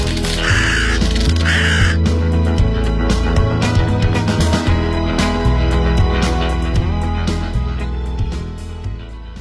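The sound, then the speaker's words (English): Harsh cawing calls from a bird that has come back indoors, a few rough bursts early on, then more calls blending into a dense, steady wash of sound that stays fairly loud throughout. “Oh, no, let us stay. Yes, why not? I like a bit of birdsong.”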